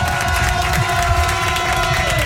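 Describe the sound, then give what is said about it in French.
A loud audience cheers and applauds to welcome a young singer: a continuous, dense roar of clapping and shouting that stays level from start to finish. “Faites beaucoup de bruit pour lui.”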